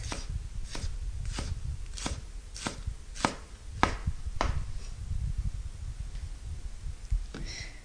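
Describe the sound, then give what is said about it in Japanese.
A knife minces long green onion on a cutting board: a steady series of crisp, evenly spaced chops, then a pause and one more chop. “みじん切りはネギを回しながら縦に何箇所か切れ目を入れます。それから端からみじん切りにしていきます。”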